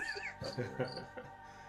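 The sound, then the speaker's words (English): Cricket chirping outside an open window on a warm night, with a few short high-pitched bursts that recur irregularly beneath soft voices talking. “I opened my window. There's a cricket outside.”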